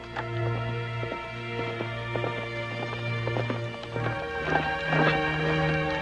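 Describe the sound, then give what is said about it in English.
Hooves clip-clop as a horse is ridden near a stream. A long run of many quick, irregular hoofbeats is heard without talk. “Later, near the stream behind her father's property, Wynn rides a horse.”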